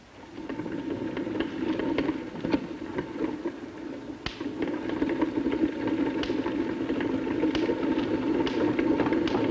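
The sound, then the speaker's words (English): A small hand-cranked electrostatic generator model with a moving belt gives a steady whirring rumble, broken by sharp ticks and snaps as sparks jump between a wire mesh and a ball. “You can see that as I slowly rotate the crank, this belt is moving. And then if I rotate the crank a little faster, you will see a spark jumping between this wire mesh and this ball over there.”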